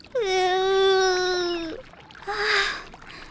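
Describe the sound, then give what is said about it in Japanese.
A young girl cries in a drawn-out, wavering wail with strong harmonics, about a second and a half long, then breaks into a shorter, breathy sob after a brief pause. “ほらほら、もう泣かないの。”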